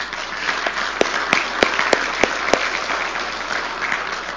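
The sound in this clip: An audience applauds to welcome a guest, with steady, dense clapping and a few sharper individual claps standing out.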